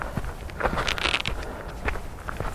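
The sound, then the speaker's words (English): Footsteps of a hiker walking on Walton Hill near Clent fall one after another at a relaxed walking pace, each a soft crunch, alone with no talk. “So we'll keep on walking.”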